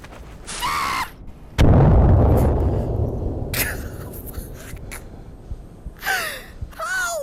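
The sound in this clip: Grenade explosion in a video game: a sudden loud blast with a deep rumbling body that slowly decays over several seconds, with short vocal sounds like gasps both before and after it.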